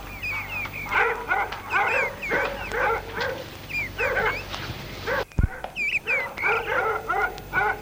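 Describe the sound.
Dogs barking during a police search of a park, sharp high-pitched barks and yips repeating in irregular bursts almost throughout, loud and overlapping.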